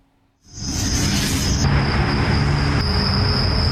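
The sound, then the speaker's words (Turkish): Crickets chirping at night in Adana, a dense, loud chorus that begins after a brief quiet moment and holds as a steady, shrill high-pitched drone with a constant rasping texture. “Her gün cırcır böceği sesinden, gürültüsünden, kendisinden uyuyamaz olduk.”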